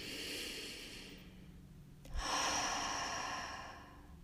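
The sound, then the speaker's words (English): A slow, deep breath on its own: a long, airy inhale, a short quiet pause, then a longer, fuller exhale that gradually fades out. “Take a deep breath.”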